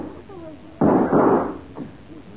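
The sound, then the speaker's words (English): Gunshots are fired toward bushes in a radio drama: two loud, sharp bursts close together, then a fainter one, over a low background. “Shots were behind those bushes over there, Matty. Right. I'll smoke them out.”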